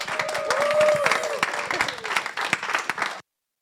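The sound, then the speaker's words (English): Audience applause welcomes a speaker to the stage: dense, crackling clapping with a drawn-out whoop near the start, tapering slightly before cutting off abruptly about three seconds in. “Would you help me welcome up Seth? Put your hands together for Seth.”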